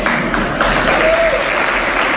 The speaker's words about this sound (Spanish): Esta noche ha dado un discurso en una universidad privada de la capital, donde se ha llevado el aplauso del público al decir esto.